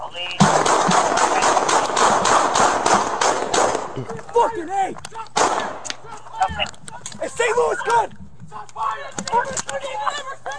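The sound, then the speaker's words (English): Rapid gunfire, a dense run of loud sharp cracks, then excited voices with further intermittent shots. “Shots fired. They were throwing that gun fire!”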